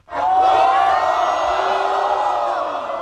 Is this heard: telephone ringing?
no